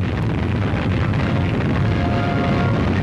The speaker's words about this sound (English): A few hours later, the second Polaris is fired.